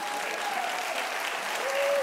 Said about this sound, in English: Applause. Applause.